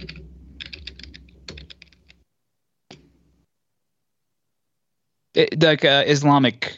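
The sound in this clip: Keys clatter on a computer keyboard in a quick burst of many clicks, then one lone keystroke follows after a pause, and a person starts talking.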